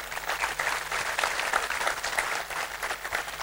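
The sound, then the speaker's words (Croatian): Audience applause at a song festival's competition evening: dense, steady clapping that holds an even loudness for its whole length without a break. “Vizit Sarajevo i BH Telekomu, pa jedan aplauz i za njih”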